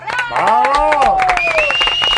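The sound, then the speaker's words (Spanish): Audience applause for the directors of a live television show: dense, sharp claps with cheering voices and a high, sustained whistle-like tone riding over the crowd. “Javi Rodríguez y Hernández, con Antonio Hernández. Hay que aplaudirlos, ¿eh?”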